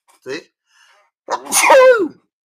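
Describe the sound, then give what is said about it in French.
A person gives a single loud sneeze after a short, sharp intake of breath, the burst ending in a voiced tail that drops in pitch. “un éternuement en direct, les amis, ça fait plaisir.”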